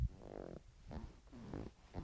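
A leather chair creaks in a few faint, low, buzzy, fart-like squeaks and groans of uneven length.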